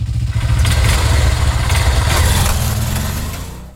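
A new motorbike engine runs at a steady idle, giving a loud, low, throbbing rumble with a continuous pulse that eases off slightly near the end.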